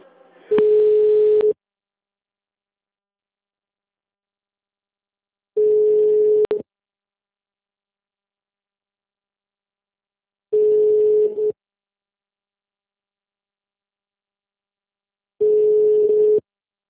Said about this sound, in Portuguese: Sua ligação é muito importante para nós. No momento, o ramal desejado está ocupado.